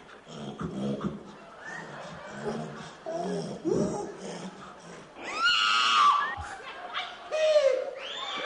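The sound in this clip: A person hog calling, imitating a rooting, squealing pig with a run of loud grunting, snorting vocal noises that break into shrill squeals.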